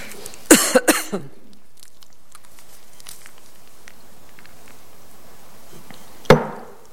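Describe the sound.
Coughing from a throat tickle: a quick burst of several harsh coughs, then a long quiet stretch before one more sharp cough.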